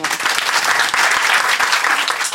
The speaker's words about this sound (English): Round of applause for Jimmy.